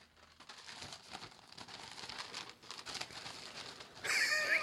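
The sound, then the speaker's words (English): A sheet of paper is crumpled in the hands, giving a steady crackling, crinkling rustle that runs for about four seconds with many small irregular crackles, unaccompanied by voices. “this is me crumbling my paper that was made in China.”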